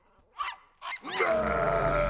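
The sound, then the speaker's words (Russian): A man growls at a puppy: two short voiced grunts give way to a loud, sustained, rough growl that holds steady to the end. “Человек рычит на щенка, у того шерсть встает дыбом.”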